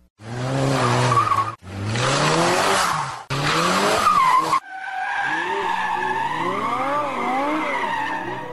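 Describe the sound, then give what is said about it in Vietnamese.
An old Ford car brakes to a stop with screeching tires: four long, loud squeals follow one another with abrupt breaks, their shrill pitch wavering up and down. “có chiếc xe Ford cũ chạy tới rồi đạp thắng ngừng ken két bên tôi.”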